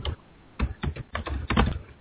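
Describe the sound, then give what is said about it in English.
Heavy typing on a computer keyboard clatters in the background in several uneven bursts of hard keystrokes separated by short pauses. No voices are heard. “I'm not sure what's going on in the background there, but we've got... Someone's doing some heavy typing.”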